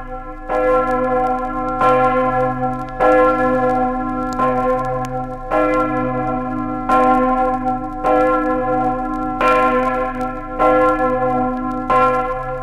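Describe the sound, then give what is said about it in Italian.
Large main bell of the parish church of Corto in Friuli tolling in a slow, regular series of strikes, about one every 1.2 seconds. Each rich, ringing tone overlaps the next, and nothing else is heard. “Ne sia conferma la campana maggiore della pieve di Corto.”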